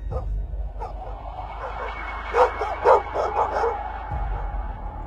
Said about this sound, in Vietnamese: Bầy chó đang sủa tợn như vậy